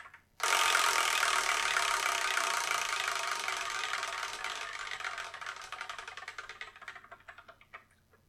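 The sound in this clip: A prize wheel spun to pick the next manga review gives a sudden, dense whirring clatter that slowly weakens and thins into sparser ticks before stopping, alone without talk.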